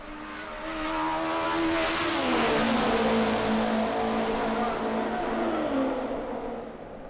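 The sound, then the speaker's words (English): A race car engine at speed, getting back on the throttle through a short stretch between corners: a loud, continuous buzzing roar whose pitch climbs after about two seconds and then holds high. “You can hear him as he gets back on the throttle, going through the short stretch.”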